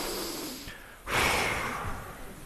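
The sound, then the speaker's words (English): A group of people exhale together in one loud, breathy rush after a short quieter pause, the shared breath swelling quickly and then slowly tapering off. “we're all gonna take a big inhale and we're gonna exhale together. One, two, three.”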